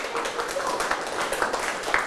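Classroom students clap for a classmate during a math lesson, a dense, steady patter of many hands at moderate loudness that continues evenly throughout.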